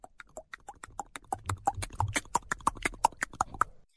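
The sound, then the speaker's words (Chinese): Rapid hoofbeats of a galloping horse, many sharp clip-clop strikes in a quick, even rhythm that grow somewhat louder over the first part and then hold strong to the end. “就在这个功夫，传来一阵急促的马蹄声，这马蹄声是由远而近，”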